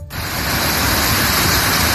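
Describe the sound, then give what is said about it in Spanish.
Floodwater roars down the Barranco de las Angustias ravine on La Palma during heavy storm rain and wind, a loud, dense, unbroken rushing wash. “Con esta fuerza baja el agua por el barranco de las Angustias en la isla de La Palma.”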